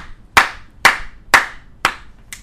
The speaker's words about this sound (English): You gave your whole self a round of applause right then.